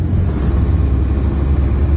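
Loud, steady low rumble of a car driving across fields near a front line, the engine droning evenly throughout.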